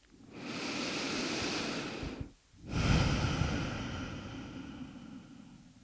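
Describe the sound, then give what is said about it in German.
Deep, slow breathing during a guided relaxation: one long airy inhale, a brief pause, then an equally long rushing exhale, soft and breathy without any talking. “Atme tiefer ein und nochmal aus.”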